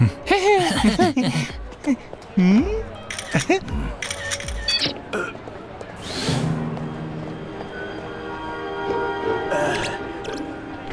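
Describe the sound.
Camera shutter clicks as photos are taken of a person, a few sharp clicks mixed in among people talking.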